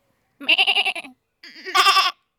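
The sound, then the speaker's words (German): A person imitates a goat bleating, like a young kid, with two loud, wavering bleats full of quivering tremolo. The second bleat is brighter and more strained than the first, and there is no other talk. “Warte mal, ich will auch mal eine Ziege imitieren.”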